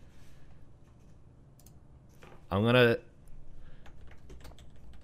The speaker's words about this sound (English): I'm gonna type what I think is the final one, the final two movies to you.